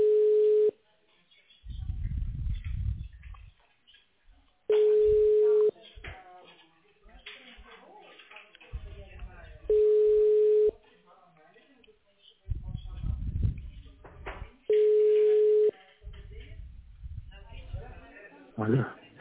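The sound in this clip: Telephone ringback tone while a call is put through to a patient: four steady beeps, each about a second long and spaced roughly five seconds apart, over a narrow phone line, with muffled talk and noise between them.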